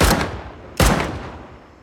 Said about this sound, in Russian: Мужчина медленно достает пистолет. Стреляет в полицейских.